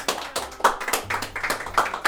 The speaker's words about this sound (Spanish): ¡Un aplauso para él!